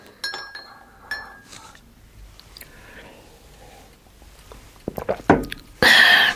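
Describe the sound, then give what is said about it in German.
A spoon clinks against a teacup while stirring tea at a breakfast table: a few light, bright taps, then a quick cluster of louder clinks, and a harsh noisy burst at the end. “Meine Tante saß gedankenverloren über den Frühstückstisch gebeugt und rührte mit einem Löffel in ihrer Teetasse herum.”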